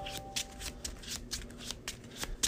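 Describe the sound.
A deck of playing cards is shuffled during a card game, giving many quick, soft riffling clicks and flutters in an uneven rhythm, faint and with no talking.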